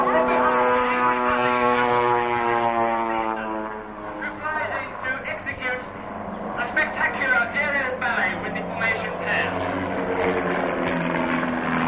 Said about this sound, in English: And on the B-axis, the aircraft come flying towards us.